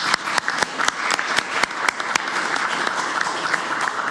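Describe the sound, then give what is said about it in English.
A round of applause at a council meeting, marking a new councillor's affirmation of office: distinct, scattered claps at first quickly fill out into steady, moderate clapping that continues to the end. “I might ask for a round of applause.”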